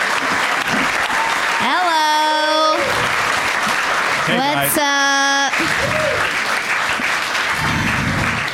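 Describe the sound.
Audience applause welcoming three comedy guests onto a show: loud, dense clapping holds steady throughout, with brief sustained tonal sounds rising over it in the middle.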